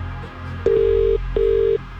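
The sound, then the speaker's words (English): Ringback tone of an outgoing telephone call: two steady, mid-pitched tone bursts of about half a second each, separated by a short gap, over low background hum. “We're making this call right now. And you need to answer within five rings.”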